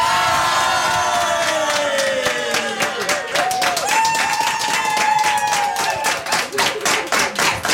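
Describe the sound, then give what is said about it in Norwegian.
A crowd cheers, whoops and claps at a celebration at Kvitnes farm. Loud, continuous applause runs throughout, with many rapid claps and excited shouts and whistles rising above it. “Som du ser og hører, så blir det feiring langt utover kvelden.”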